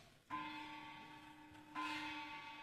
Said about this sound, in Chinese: 钟响了